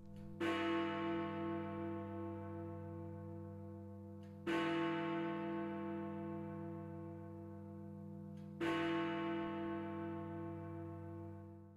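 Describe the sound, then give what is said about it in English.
A large bell in a London clock tower strikes the hour. Three deep, loud strikes come at an even, slow pace, and each one rings out in a long, humming decay with no voices. “That is the sound of Big Ben.”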